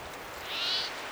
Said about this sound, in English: Might be a second bird crying.